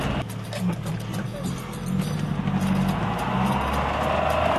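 Car driving over soft desert ground on a mesa in Morocco, with a steady low engine rumble and broad rolling noise that swells slightly partway through and holds even.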